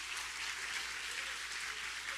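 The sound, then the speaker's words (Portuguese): Applause during a church service, a faint, even patter of many hands clapping that stays level from start to finish. “Aplauda ele, ele está aqui.”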